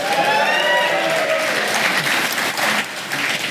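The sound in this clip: Audience applause for a panel of hurling figures at a live GAA show in Thurles, a dense, steady clapping that fills the whole clip on its own, with a slight dip in loudness near the end.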